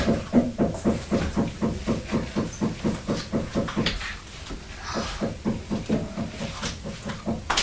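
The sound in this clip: A neighbour banging with a hammer while building cupboards in a bedroom: many quick, evenly spaced knocks in a steady beat, a brief pause about halfway, then the regular blows resume.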